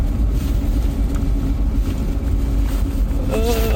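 A car drifts on an icy track with a 70% rear torque split, over polished ice inside the circle and groomed icy snow outside. Its engine gives a loud, steady drone mixed with wind noise throughout.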